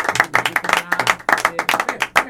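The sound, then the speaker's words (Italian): Applause follows a singing performance: loud, brisk clapping from a small group, with separate claps clearly audible in an uneven rhythm. “facciamo noi gli applausi.”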